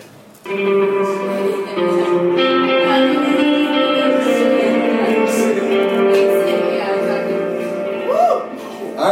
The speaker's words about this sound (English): Someone playing guitar.